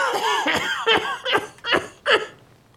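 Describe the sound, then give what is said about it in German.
Coughing of a man in a villa bedroom in 1924: a run of several rasping, voiced bursts, each short and strained and separated by brief pauses, growing more spaced toward the end before fading out. “plagt dich der Husten wieder?”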